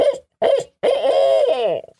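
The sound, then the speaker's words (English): Owl hoot locator call used for turkey hunting: two short, loud hoots followed by a longer drawn-out note that slides downward as it fades. “So when you owl hoot, one of the first things you want to do is go out and do a single note, Redbone.”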